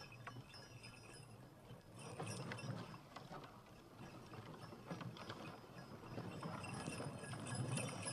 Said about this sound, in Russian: Закрытую карету тащат две лошади темной масти.